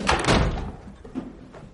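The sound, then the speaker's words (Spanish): Door thud as someone slips out through a side door: a dull, heavy knock followed by a brief lower rumble that fades quickly. “Se escabulle por una puerta lateral y sale.”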